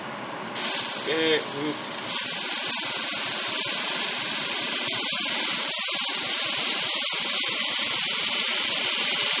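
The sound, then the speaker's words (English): Loud, steady sizzling as homemade beef stock is poured into a hot pan to lift the meat juices. A bright hiss starts suddenly and continues unbroken, and a voice is briefly heard early on. “Fetch my newly made beef stock. That's going to go into the pan to take some of those juices out.”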